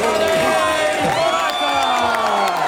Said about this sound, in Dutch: Niet alleen hij, iedere renner krijgt zijn eigen applaus.